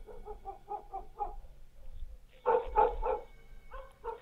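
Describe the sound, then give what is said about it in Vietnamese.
A neighbour's dog barks faintly in bursts: a quick run of small, yappy barks, then a short pause and a few louder, fuller barks, with scattered barks to finish. “bỗng nhiên con chó nhà hàng xóm, nó cứ sủa nhấm nha nhấm nhẳng. Thỉnh thoảng nó chu lên ông ổng, nghe đến quái dị.”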